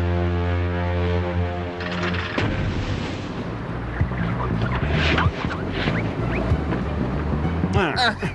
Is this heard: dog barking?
no